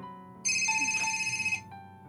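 A phone ringtone sounds for an incoming call: a single bright, steady electronic burst of about a second, fairly faint, with a softer tone lingering before and after.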